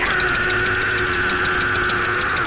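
Car engine sound effect in a Chinese drama about a police chief setting off in a small car: a loud, continuous droning motor with a rapid, even pulsing throughout and no voices.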